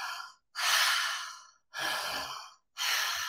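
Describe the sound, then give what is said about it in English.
Circular connected breathing from a breathwork practice: long, airy breaths in and out follow one another with only brief gaps between them, each strong and breathy, with no talking. “With the circular connected breath, it's breathing in and out.”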